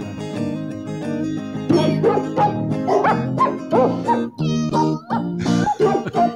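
Dogs bark and yip loudly in a dense run of many barks. Pitches shift from bark to bark over sustained tonal notes, and a few whimpering yips are mixed in.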